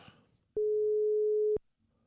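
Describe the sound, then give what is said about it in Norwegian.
A telephone tone sounds while someone is being called: a single steady mid-pitched beep lasting about a second, loud against near silence. “Jeg må bare få ringt henne opp.”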